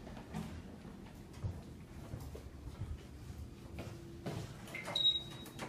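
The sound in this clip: Train doors slide open in a train simulator video game: soft clunks, then a steady low hum that ends in a broad whooshing burst, followed by a brief high tone near the end.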